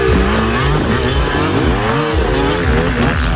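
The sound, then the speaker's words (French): Motocross motorcycle engines rev and accelerate at a motocross race, loud and buzzy, with pitch swooping up and down in repeated throttle sweeps. “Oh oui, ça va jouer de l'accélérateur. Le motocross des nations se déroule du 2 au 4 octobre, c'est à Ernée.”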